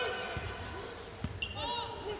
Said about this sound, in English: Works on the dribble against Lyons